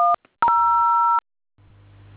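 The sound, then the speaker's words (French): Telephone dialling tones: a short two-tone keypad beep, then a longer steady dual-tone beep, then a low humming line tone. “Prenez un autre téléphone, vous composez le numéro.”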